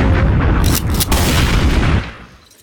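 A loud bomb explosion sound effect: a heavy, rumbling boom with crackling bursts layered over deep low-end roar. It holds at full strength for about two seconds, then fades away.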